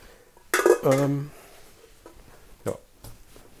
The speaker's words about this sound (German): Ein Topf. Und noch einen kleinen Topf. So, und noch eine Socke entlocht. Und noch einen tiefen Teller und dann bin ich auch schon fertig mit Ausräumen.